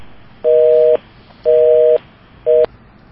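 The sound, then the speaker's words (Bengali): A telephone busy tone sounds after a call line drops: three steady, evenly pitched beeps with short gaps between them, the last one cut short, over faint background hiss. “কথা বলতে বলতে লাইনটি কেটে গেল”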